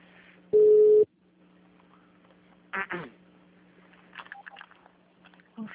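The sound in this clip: A telephone tone after a dropped call: a single loud, steady half-second beep, followed by faint, muffled voices on the line.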